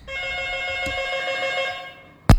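A telephone rings with one steady, buzzing electronic tone held for about two seconds, broken by a small click. A sharp clunk cuts it off at the end.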